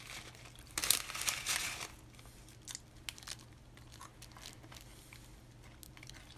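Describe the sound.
Crinkling of a snack packet and crunching of a snack during a taste test of a new flavor: a dense burst of crinkly rustling early on, then scattered crisp crackles and crunches, fairly quiet, with no talk.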